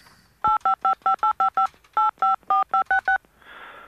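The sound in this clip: Thirteen touch-tone keypad beeps as a telephone number is dialed to a building maintenance company: a quick run of seven, a short pause, then six more, followed by faint line hiss.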